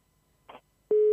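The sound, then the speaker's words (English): A telephone busy tone sounds after the other side hangs up on a prank call to a pizza shop. A brief soft rustle comes first. Then a loud, steady, low continuous tone begins and holds unbroken to the end. “Oh, no, they hung up.”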